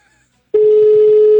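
A telephone ringback tone plays on an outgoing call. After a moment of near silence, one steady, loud, mid-pitched tone starts abruptly and holds without a break.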